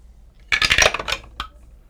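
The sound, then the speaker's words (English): Many dice clatter as they are rolled across a table during a tabletop game: a dense burst of sharp rattling knocks lasting under a second, followed by one last isolated click. “That was a lot of dice.”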